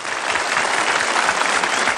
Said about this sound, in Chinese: 不过也很棒了啊，答对了一题，鼓鼓掌。